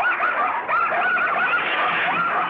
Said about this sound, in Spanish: ¡Malditos perros! ¡Los voy a matar!